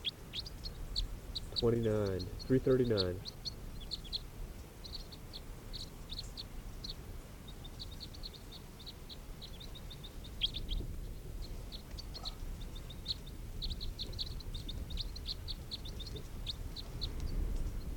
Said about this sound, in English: Recording. This is bird